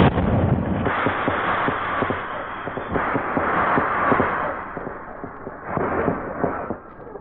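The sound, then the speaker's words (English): Emergency rockets being set off: a dense, continuous barrage of loud crackling pops and rumbling bursts lasting several seconds, swelling in intensity a few times. “Now, just one more thing to set off these emergency rockets. Now!”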